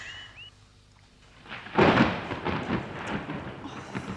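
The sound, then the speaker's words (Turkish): Sudden summer rain with thunder outdoors: a quiet stretch breaks into a loud rumbling crash, which settles into a steady rushing hiss of rain. “Birden bu yağmur... E, bir yere sığınsak... Yaz yağmuru tez geçer.”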